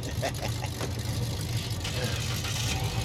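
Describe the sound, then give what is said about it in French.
A car engine idles at low volume, a steady low rumble and hum that holds even throughout, with faint small clicks and no revving. “Nouvelle voiture? Elle en jette, hein?”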